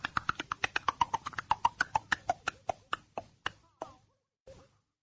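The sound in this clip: Hoofbeats of a horse running out of the woods, many sharp, evenly spaced thuds that gradually slow and thin out before stopping.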